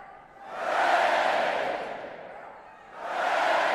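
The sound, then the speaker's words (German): A British crowd cheering during a wartime evacuation of soldiers, a broad roar of many voices swelling in two waves with a dip between them. “Die Briten jubeln”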